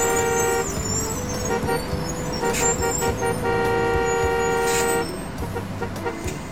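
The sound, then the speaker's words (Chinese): Car horns honk in a crowded, narrow street jammed with traffic: overlapping sustained horn blasts ring out over a constant low road rumble, pausing briefly and then resuming. “街道不宽，往来车辆又多，总是堵成一团，车笛声、人声嘈杂的，简直要戳破耳朵。”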